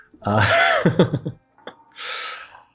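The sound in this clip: A speaker pausing to take a breath: a short voiced sound and a small click, then a clear, airy inhale heard on its own.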